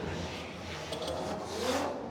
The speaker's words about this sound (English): Here comes this Word House Drift Team Falcon Tires FDRX7, James the Machine Dean.